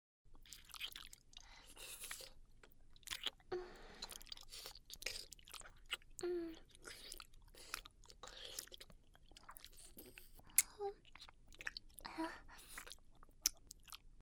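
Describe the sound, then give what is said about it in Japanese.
Wet licking with the tip of the tongue: many soft, irregular slurps and smacking clicks, quiet and close, with short silent gaps between bursts. “先で転がすように舐めてるよ。”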